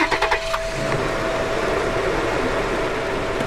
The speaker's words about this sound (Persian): ماشین دور میشه.